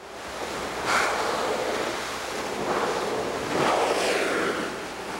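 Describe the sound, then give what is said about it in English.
A whale surfacing to breathe: broad breathy whooshes of exhaled air rise over a constant rushing wash of sea and wind, with one swell early on and a longer, louder one near the end. “That's the sound of a whale surfacing to get air.”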